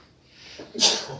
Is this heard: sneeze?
yes